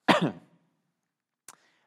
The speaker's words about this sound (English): Excuse me, I'm going to cough somehow.